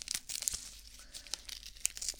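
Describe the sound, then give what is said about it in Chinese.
Crinkly rustling and light tearing of medical adhesive tape, the newer kind stuck on the hand after an injection rather than the old roll type. It comes as faint, scattered crackles with a few sharper ticks. “打完针之后贴到你手上的胶带。对，现在用的都是这种胶带了，跟之前的不太一样”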